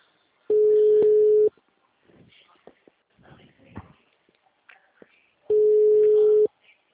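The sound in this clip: An outgoing phone call rings with two steady, mid-pitched tones about one second long each, separated by a long pause filled with faint rustling and handling noise.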